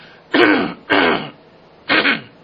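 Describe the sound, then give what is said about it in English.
Three short, harsh throat-clearing coughs from a speaker during a Bible talk. The loud bursts are separated by brief pauses, and no speech is heard. “I apologize, but I'm going to keep going. I could pause it and try and cough this out, but I'll put you through the suffering of it.”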